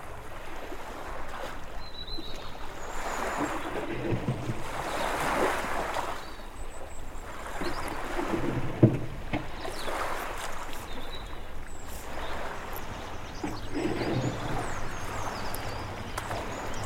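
Oars pulling a boat through the sea: rhythmic swishing strokes recur every couple of seconds over a steady wash of waves and wind, with a single sharp knock midway.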